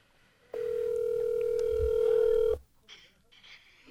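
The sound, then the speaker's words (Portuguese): Ringback tone of an outgoing telephone call: one steady, mid-pitched tone lasting about two seconds, followed by a quiet stretch of low noise. “Eu vou tentar fazer uma ligação. Tomara que ele atenda.”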